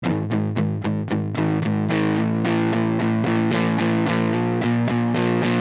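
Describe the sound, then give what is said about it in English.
Electric guitar, an offset Telecaster, through an unlabeled silver fuzz pedal: a heavy, thick, saturated tone with a rhythmic run of chopped, repeated chords that blends into a sustained, buzzing wall. “This is a fuzz.”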